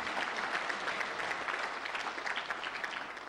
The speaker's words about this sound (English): Right now, I want you to put your hands together and give a mighty lakeside welcome to David and Beth Grant.